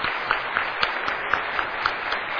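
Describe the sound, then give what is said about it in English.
Applause in an auditorium as military veterans stand, a fairly soft bed of many hands clapping with a few sharper claps recurring at a regular, quick beat throughout. “Round of applause.”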